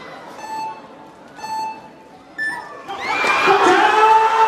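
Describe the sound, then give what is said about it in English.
Three electronic start beeps, the last one higher, open the speed climbing finals at a Sports World Cup event in Xiamen, China. A loud crowd then erupts in sustained cheering and shouting. “That's the start of the speed climbing finals at the Sports World Cup event in Xiamen, China.”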